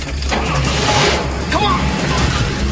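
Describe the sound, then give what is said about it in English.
A truck drives away through an empty town at night, a steady low engine rumble with broad road noise that holds at a fairly even level throughout. “As the truck drives away, Pell and Stuckey lose interest and finally head inside.”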